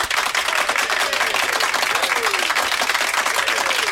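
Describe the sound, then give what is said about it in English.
A round of applause rings out as a thick, even wash of many hands clapping, holding at a steady loudness throughout, with a few voices rising over the clapping. “I just want to give a round of applause”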